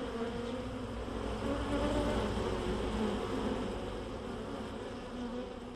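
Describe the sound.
Honey bees buzzing around a hive, a dense, continuous droning hum from many insects that stays fairly faint and steady throughout, with no voices.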